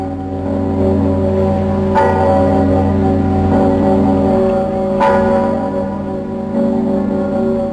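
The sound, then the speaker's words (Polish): A large historic church bell in Kraków, first rung in 1521 and sounded on major church and national holidays, tolls with a few heavy strikes. Each strike rings into a deep, sustained humming resonance. “Bije w najważniejsze święta i uroczystości kościelne i narodowe. Dzwon Zygmunt. 13 lipca 1521 roku, czyli 500 lat temu, mieszkańcy Krakowa po raz pierwszy usłyszeli brzmienie właśnie tego dzwonu.”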